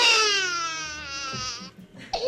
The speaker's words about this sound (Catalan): Ja plora. Doncs mira. Ja plora.